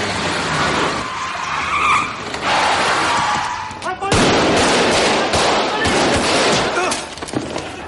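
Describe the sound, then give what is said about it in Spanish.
Car tires screech in a skid on a city street as another vehicle blocks the path, a loud, squealing slide amid rumbling engine noise, followed by sharp, loud bursts. “Otro vehículo circula por la ciudad cuando de repente impide el paso del coche de Coldo y otro más.”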